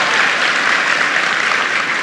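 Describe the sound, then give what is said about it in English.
An audience applauds for a guest being welcomed at a formal event, with dense, loud, continuous clapping holding steady throughout. “Please give him a big round of applause.”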